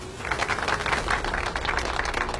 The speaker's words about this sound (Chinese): 现场爆发出热烈的掌声。